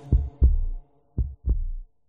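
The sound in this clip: Heartbeat sounds in two clear lub-dub pairs, each a pair of deep, low thumps with a short gap between, then a pause before the next pair, heard alone and fairly loud.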